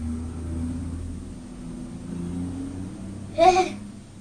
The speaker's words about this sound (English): No, Skip's driven off now, but this man. Oh, this, look, Skip man's driving past again.